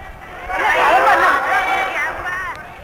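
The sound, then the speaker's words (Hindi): A busy crowd of people hurrying past makes a dense babble of overlapping voices, steady and fairly loud throughout. “कितनी भीड़, सब कैसे जल्दी में जा रहे हैं, किसके लिए वो दौड़ रहे हैं और किसके लिए”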